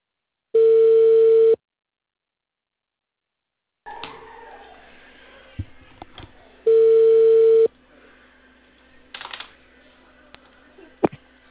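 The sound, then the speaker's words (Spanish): Ringback tone of an outgoing phone call: two long, steady, mid-pitched tones several seconds apart, with faint clicks and small noises on the line between them. “Llamando ya ahorita.”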